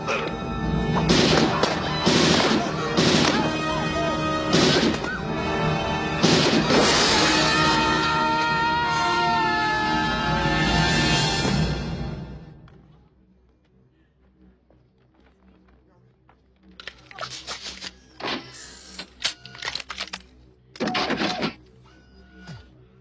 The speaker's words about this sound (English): Nice shooting, son.